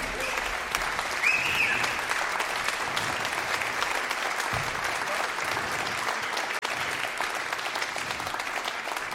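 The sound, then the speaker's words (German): Audience applause for a vibraphonist on stage at a jazz concert: dense, steady clapping from many hands that continues evenly throughout at a moderate level. “Und ja, ein Applaus vielleicht jetzt schon, das ist ganz nett.”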